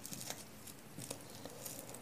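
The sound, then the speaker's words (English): A bag is folded from its sealed edge toward the handles into small triangle shapes, giving faint, soft crinkling and rustling with a few light crackles. “from the sealed edge towards the handles. We're going to fold it in these little triangle shapes like so.”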